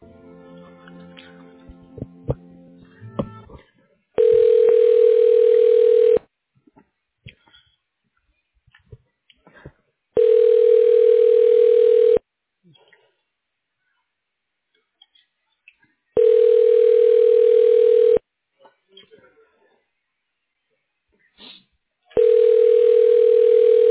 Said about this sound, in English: I'll go ahead and transfer you over, ma'am. You can leave a voicemail.